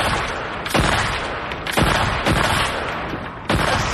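Gunfire in a video game: a few loud, sharp booming shots, each with a long decaying tail, spaced unevenly over several seconds.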